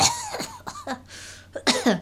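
Throat-clearing coughs from someone with something stuck in the throat: a few short, husky bursts in quick succession, with a brief pause and then a final rough cluster near the end.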